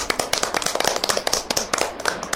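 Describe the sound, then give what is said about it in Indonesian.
Children in a kindergarten class clap together for a classmate on a zoo outing, a rapid flurry of many sharp, bright hand claps at an uneven rhythm, steady throughout with no voices. “Tepuk tangan anak-anak untuk Rian.”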